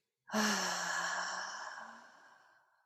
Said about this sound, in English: Inhale for 10. And then exhale.